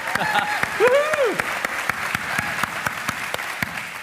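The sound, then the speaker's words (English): Audience applause at a church service welcoming a speaker to the stage, a dense, steady patter of many hands clapping, with a brief voice rising over the clapping early on. “So let's welcome her to the stage today.”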